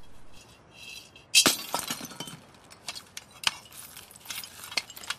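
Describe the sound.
A globe-shaped piggy bank smashes with one sharp crash, followed by scattered tinkling and clinking as the broken pieces settle, the later clinks fainter and irregular.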